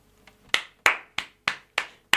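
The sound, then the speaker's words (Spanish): Hand clapping applauding a resident of a small town with dark, unlit places. One soft clap is followed by six sharp, evenly spaced claps, each with a quick decay, sounding alone with no talk. “Este aplauso es para vos que vivís acá.”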